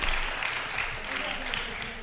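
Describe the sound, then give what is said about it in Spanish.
Audience applause fills the whole stretch as a steady, dense wash of clapping, with voices calling out over it. “Un aplauso para la Play 3 y el porno, por favor.”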